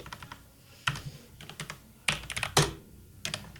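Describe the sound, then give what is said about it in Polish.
Computer keyboard keys clacking as someone types a shortcut: a series of sharp, irregular key presses, some single and some in quick clusters, with short pauses between them. “Nacisnąłeś chyba Alt-A zamiast Alt-S.”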